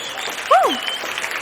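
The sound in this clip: Audience applause for a guest, a short burst of dense clapping that swells just past the halfway point and carries on steadily to the end.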